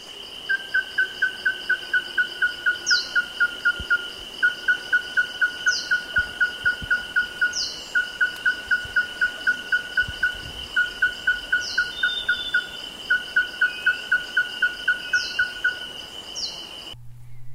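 A yellow-throated tinkerbird sings, repeating a single high, fluted note in rapid even trains separated by brief pauses, over a steady insect drone with occasional sharper chirps from other birds.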